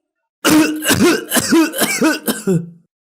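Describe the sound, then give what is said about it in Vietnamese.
Dramatized coughing from an older woman lying in a coffin at a candlelit funeral wake: five loud, harsh coughs in quick succession, each with a strained, voiced rasp trailing off. “Giữa ánh sáng nến lờ mờ tăm tối, đột nhiên bà Duyên đang nằm im trong quan tài ho lên”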